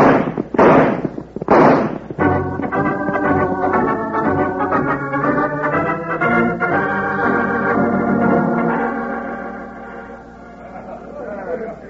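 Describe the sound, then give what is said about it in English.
Gunshots crack out as a few loud, sharp bursts in the opening seconds, then give way to sustained tonal music for the rest of the stretch. “start shooting”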